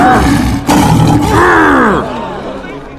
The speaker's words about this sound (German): Alex, der Löwe aus dem Zoo. Für sie hören sich seine Worte so an.